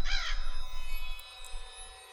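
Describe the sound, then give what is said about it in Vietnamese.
A crow caws as it takes off into the sky. One loud, harsh caw comes at the start, then fades into faint trailing tones with no other sounds. “thì con quạ mới cất cánh lao vụt lên tầng không, vọng lại ba tiếng quạ quạ đầy ai oán.”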